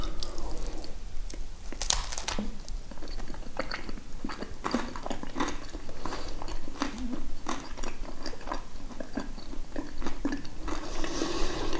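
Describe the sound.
Someone crunches and chews on Knäckebrot crispbread, making a steady run of dry, crackly bites and crunches that repeat throughout at a moderate level.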